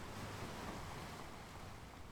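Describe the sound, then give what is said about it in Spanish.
Faint, steady wash of sea waves as the tide goes out, a continuous soft hiss with no distinct breaks. “Está bajando la marea.”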